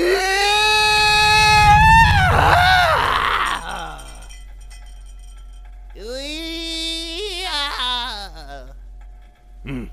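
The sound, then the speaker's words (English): A human voice imitates a mole's squeal with two drawn-out, high, nasal squealing cries, the first long and strained, the second shorter and wavering, separated by a quieter pause. “And the second, there's the squeal. A good squeal can set the mood. Now repeat after me.”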